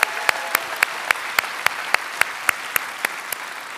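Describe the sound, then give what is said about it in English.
Church audience clapping an Easter welcome, sharp hand claps landing on an even, steady beat over a soft bed of general applause. “So if you are here in person, would you put your hands together and give a loud Easter welcome to our online family?”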